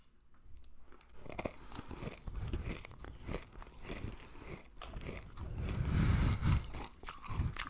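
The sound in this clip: Nerds candy is crunched and chewed close to the microphone, giving many small, dry crackling crunches in a steady run that grows somewhat louder toward the end.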